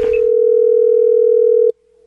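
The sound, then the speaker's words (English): A telephone dial tone sounds while calling a breakfast restaurant: a steady, loud, unbroken hum that holds for well over a second before cutting off abruptly, leaving only a faint trace. “I have to call the breakfast place at the request of somebody to mess with the manager”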